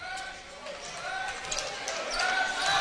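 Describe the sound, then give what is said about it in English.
A basketball is dribbled before a free throw at a high school game. Dull bounces sit under a steady crowd murmur and an announcer's voice. “Four dribbles this time. Deep knee bend. Five dribbles. That's more than usual.”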